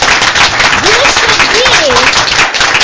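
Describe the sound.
Loud, dense applause fills a school board meeting in support of an elementary school principal. Voices rise and call out over the steady clapping throughout.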